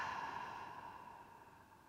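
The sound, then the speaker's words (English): A slow exhaled breath during guided breathing, a soft, airy rush that holds steady and gradually fades over about two seconds, quiet and alone. “Inhaling with me. And exhaling.”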